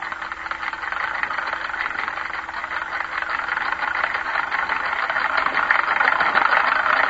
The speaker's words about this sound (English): The next sound you hear will be that of a spinning wheel.